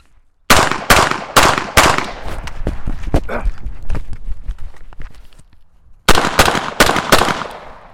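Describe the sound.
Gunshots ring out during a shooting drill at targets, firing from 40 then running up to 20: four quick, sharp, loud shots, a stretch of quieter footsteps and clattering movement, then four more rapid shots.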